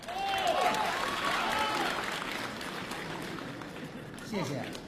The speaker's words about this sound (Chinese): 谢谢大家热情的掌声， 谢谢。